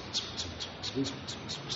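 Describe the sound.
A bird calling in a fast, steady series of high, thin chirps, about eight evenly spaced notes, faint over a low background noise.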